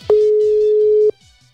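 A WhatsApp call's ringing tone: one steady, mid-pitched tone held for about a second, with a click at each end and faint pulsing sounds underneath.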